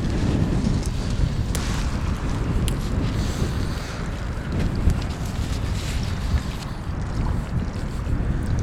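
Onshore wind blows along a coast, buffeting the microphone in a steady, low, rumbling roar that lasts the whole clip with no voices.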